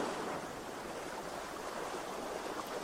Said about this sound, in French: Ce bruit de l'eau, encore, vous aide et vous accompagne.